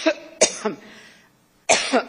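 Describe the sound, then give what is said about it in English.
A woman coughs while giving congressional testimony: several sharp, dry coughs in two clusters, a quick run early on and another pair after a short pause. “Unfortunately, during a testimony in front of Congress once, she had an issue with coughing.”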